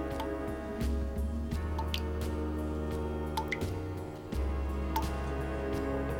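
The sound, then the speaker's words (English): A tap drips in a flat, sending out a few soft, irregular drops over a steady low hum. “His eyes are open as he listens to the dripping of a tap.”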